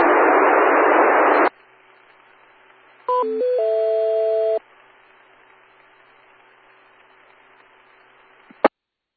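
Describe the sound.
Beeping keypad tones come from a man pressing buttons on his radio during an amateur radio net. A loud burst of static opens, then a steady hiss and hum, a short cluster of tones, more hiss, and a sharp click at the end.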